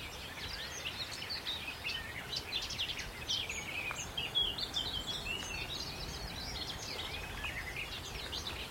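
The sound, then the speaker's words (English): A garden warbler sings on Sugar Loaf mountain, a quick, chortling warble of high notes running on continuously and faintly. “Ah, it's a garden warbler here. Sort of chortling away.”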